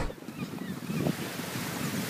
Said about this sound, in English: Down by the pier, waters were still rough from the storm